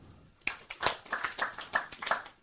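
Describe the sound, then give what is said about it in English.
Hands clapping to announce oneself before entering a home altar area, a series of several sharp, faint claps at an uneven pace. “you draw the Lord's attention by making a sound, either by ringing a bell or clapping your hands”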